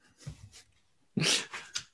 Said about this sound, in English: Sorry, my dog wants to be part of the podcast.